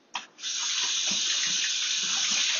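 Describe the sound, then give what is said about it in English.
Water runs from a kitchen tap as hands are rinsed between steps of seasoning chicken: a brief splash, then a steady, even gush that lasts to the end, with no talk. “going to rinse our hands really quick. Hands are nice and rinsed.”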